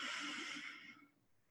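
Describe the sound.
A deep breath drawn in during a guided relaxation exercise, a soft airy rush of inhaled air that holds steady, then gradually fades away, with no talking.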